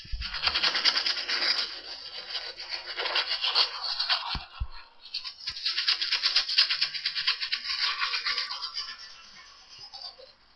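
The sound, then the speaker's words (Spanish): Teeth being brushed with a toothbrush: steady, hissy bristle scrubbing in two long bouts split by a brief pause with a few soft knocks, moderately loud and with no speech. “Este es el sonido que se produce cuando nos cepillamos los dientes.”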